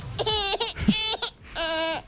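Small child laughing in a few high-pitched voiced bursts, bright and tuneful, separated by short breaths and gaps.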